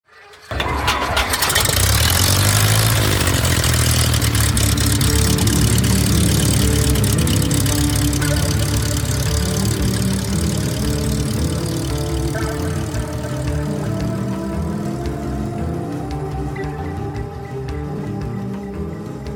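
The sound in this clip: A propeller aircraft engine starting for takeoff catches abruptly and settles into a loud, steady, rumbling drone that holds throughout and eases slightly toward the end.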